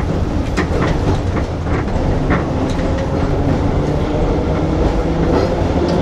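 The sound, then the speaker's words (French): A huge, old, crowded tram pulling away sets off a loud, steady rail rumble with dense clattering from the wheels and track, unbroken and forceful throughout. “L'énorme vieux tram bondé démarre dans un bruit apocalyptique.”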